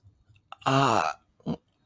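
A man suppresses a gag with one strained, voiced, throaty heave, then a shorter second choke, each separated by quiet breaths.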